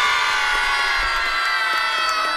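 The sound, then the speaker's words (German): A crowd of schoolchildren cheering loudly as a class after qualifying for a final with a cash prize, a continuous bright wash of shouts and whoops with no pauses. “Also, vielleicht nochmal ganz fleißig jubeln.”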